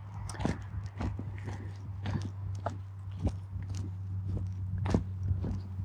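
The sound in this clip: Footsteps crunch at an even walking pace along a forest route of about 440 metres: many quiet, crisp steps over a faint, steady low hum.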